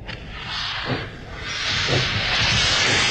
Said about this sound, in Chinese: 开往东京方向的快车就要开车了，请送客的人马上离开车厢，列车就要开了。